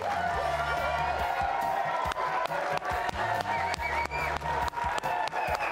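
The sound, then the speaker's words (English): A studio audience in Studio C cheers and applauds at the start of a live show welcoming BYU basketball head coach Kevin Young. A continuous crowd roar is punctuated by regular, sharp rhythmic claps throughout. “All right, another great crowd for you here in Studio C,”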